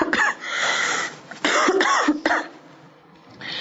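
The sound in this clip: A run of harsh, rough coughs comes from a person still recovering from a severe cold with a hoarse voice. The coughs arrive in a few bursts with brief pauses between them, and a final cough comes near the end.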